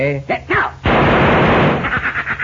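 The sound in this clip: Revolver gunshots busting thrown pieces of adobe: after a short spoken line, a loud, harsh burst of firing and shattering crashes in and holds, then tapers off into a few lighter cracks.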